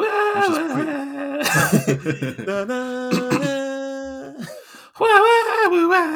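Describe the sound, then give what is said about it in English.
A voice imitates a film soundtrack's wailing vocal, holding long sung notes that slide up and down, broken midway by breathy, laughing bursts before the wail returns. “I just loved her emotion outside, and the soundtrack for there, that wailing vocal soundtrack that was going on.”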